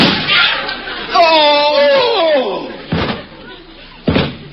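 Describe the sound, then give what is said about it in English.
Two people faint and collapse in a radio comedy: a wavering, falling vocal wail gives way to two separate heavy thumps of bodies hitting the floor. “Oh! They're both down. I put blanks in those guns. How did they get shot? Nobody got shot. The photographer dropped the flash bulb and they both fainted.”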